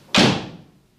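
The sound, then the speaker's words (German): A door falls shut in a radio play with a single solid slam and a short fading tail, heard alone. “Und die Tür fiel hinter ihr ins Schloss, noch ehe die Familie zur Besinnung kam.”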